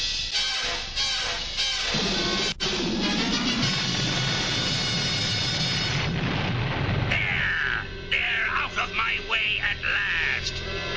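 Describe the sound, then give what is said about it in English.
A cartoon energy blast effect roars as a dense, loud rushing burst for several seconds, giving way to warbling, sweeping electronic tones with more bursts layered over a steady bed of sound. “Now I shall destroy you members with my mightiest blast!”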